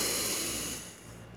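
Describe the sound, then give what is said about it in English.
A deep breath drawn in through the nose during a guided breathing exercise: a steady, airy rush that holds level, then fades toward the end, heard alone. “Inhale through the nose.”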